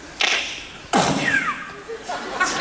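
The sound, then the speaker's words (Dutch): A voice imitates a silenced gunshot and an ejected shell casing with a few sharp, breathy mouth bursts. A brief higher, whistling sweep follows the second burst. “Je hoor je hem? Een huls die eruit vliegt. Geluidsdemper.”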